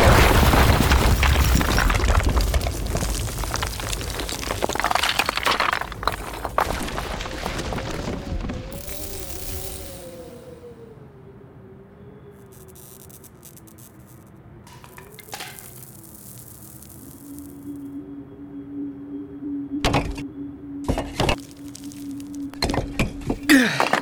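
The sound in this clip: A dramatized explosion roars with a heavy, broad rumble that slowly fades over several seconds into a low drone, broken near the end by a few sharp clicks.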